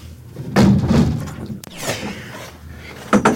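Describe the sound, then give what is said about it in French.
A window being closed: heavy thumps and a sliding, rumbling scrape, a sharp knock near the middle, then a softer shuffle and a final solid thud. “Je vais fermer la fenêtre.”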